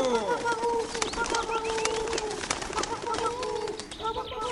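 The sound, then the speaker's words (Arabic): Pigeons coo in soft, repeated throaty calls that overlap one another continuously, with a few higher chirps mixed in and a steady low background. “وقالت الحمامة الحكيمة: بغبغوا، اتبعوني أيتها الحمامات، اتبعوني أيتها الحمامات، بغبغوا، بغبغوا.”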